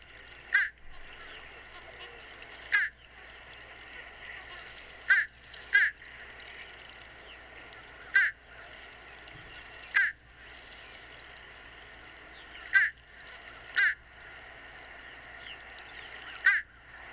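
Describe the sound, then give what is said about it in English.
Fish crow calling: a series of short, nasal, high caws, each clipped and separated by irregular pauses of a second or more, standing out clearly over a quiet background. “So here is the sound of a fish crow.”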